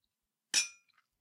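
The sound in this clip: A single bright clink of glasses touching in a toast, with a sharp ringing strike that decays quickly, followed by a couple of very faint ticks. The sound is soft and isolated, with no talk.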